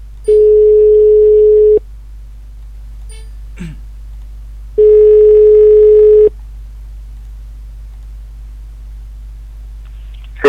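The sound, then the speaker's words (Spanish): An outgoing telephone call rings on the line. Two long, steady electronic ring tones, each about a second and a half, are separated by silence. “Vamos a hablar un poquito con él. A ver si nos coge el teléfono ahora.”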